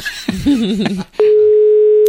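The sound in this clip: Telephone line tone as two callers accidentally dial the same number, a steady single-pitched hum that starts abruptly after a brief stretch of voices and holds loud and unbroken to the end.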